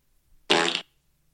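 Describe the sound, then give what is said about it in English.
A single fart, played into a microphone as a guess-the-instrument sound effect, gives a loud, buzzy, flatulent blurt lasting about a third of a second, alone after a faint soft rustle. “It was a fart.”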